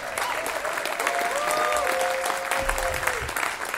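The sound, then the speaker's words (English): An audience gives steady, loud applause after a songwriter's performance, with dense clapping throughout. “How about a hand for Eden?”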